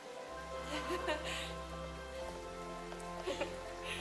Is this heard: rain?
yes

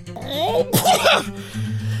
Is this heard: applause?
no

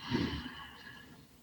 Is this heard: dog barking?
no

